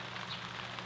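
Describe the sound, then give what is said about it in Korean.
Light rain falling over a whiteleg shrimp farm, a soft, faint, steady hiss of patter with no distinct drops or voices. “다행히 비가 조금씩 잦아듭니다.”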